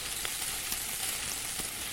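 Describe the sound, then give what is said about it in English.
Sizzling of fish cooking in a video game, one fish at a time, a steady, even frying hiss with faint crackles and no voices. “As you can see, this isn't the fastest way to cook fish, and it only cooks one at a time.”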